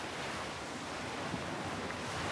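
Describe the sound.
Ocean surf rushes continuously in a steady, even wash, mixed with wind noise throughout and no distinct individual breakers.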